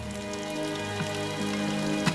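Rain falling steadily, giving an even, soft hiss with a few slightly louder drops over a low sustained tone.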